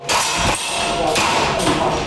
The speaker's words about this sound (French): Dans un sous-sol de Taipei, une douzaine de civils s'exercent au tir avec des armes à air comprimées.